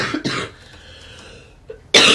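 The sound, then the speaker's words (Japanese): A person coughing to demonstrate their cough: two rough coughs close together, a quiet stretch, then a short hack and a final loud, harsh cough. “というふうに咳がね出るわけですよ。”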